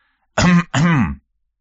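Throat clearing, a brief cough from someone standing behind another person during a demonstration: two quick, voiced, rasping bursts back to back, fairly loud and alone, with no talk.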